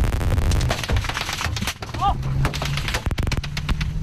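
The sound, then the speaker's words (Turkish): Gunfire during an armed attack in the 2008 Russia-Georgia war: sharp cracks in irregular clusters, with a dense rapid burst near the end, mixed with voices. “2008'de Rusya-Gürcistan Savaşı'nı takip etmek üzere bölgede bulunduğu sırada görev yaptığı meslektaşlarıyla silahlı saldırıya uğradı. Mermi yağmurunun altında kaldı.”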